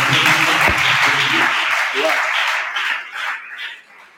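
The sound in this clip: Congregation clapping hands at a church service on wisdom from Proverbs, a dense, steady wash of applause that thins and fades toward the end, with voices audible over it.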